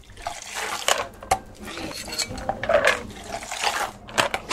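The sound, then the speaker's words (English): A cocktail is tossed back and forth through the air between two shakers, making irregular splashes of liquid mixed with light metallic clinks that repeat over several seconds at a moderate level. “Throwing it back and forth. Tossing it from shaker to shaker in the air. Liquid flying through the air.”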